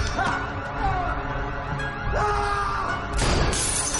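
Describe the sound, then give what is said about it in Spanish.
Two portraits and a window are smashed, a bright, noisy shattering crash near the end after a stretch of lower rumbling and scraping sounds. “Rompe dos retratos y una ventana.”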